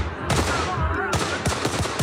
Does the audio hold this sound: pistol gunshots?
yes

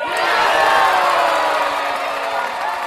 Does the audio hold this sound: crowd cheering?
yes

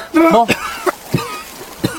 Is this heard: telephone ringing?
no

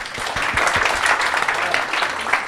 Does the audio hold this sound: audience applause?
yes

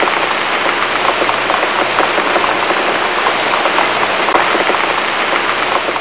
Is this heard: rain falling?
yes

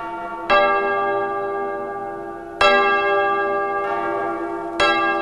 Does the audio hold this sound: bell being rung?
yes

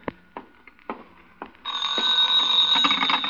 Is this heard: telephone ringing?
yes

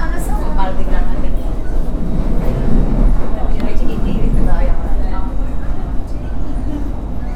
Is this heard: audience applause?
no

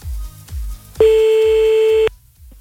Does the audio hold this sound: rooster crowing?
no

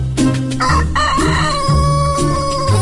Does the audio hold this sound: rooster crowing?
yes

